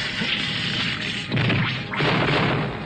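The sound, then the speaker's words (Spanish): Cartoon effect of a chunk of glacier ice being smashed off: a sustained, roaring crash swells into two heavy bursts of smashing noise, loud throughout. “Romperé un pedazo de este glaciar para bloquear la entrada.”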